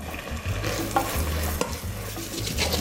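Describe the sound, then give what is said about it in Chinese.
Tomatoes added to a turmeric curry simmer and sizzle in a pan as they are stirred, a soft steady crackle broken by a few sharp scraping clicks. “番茄 加进去，好，下去焖煮，焖煮一下。”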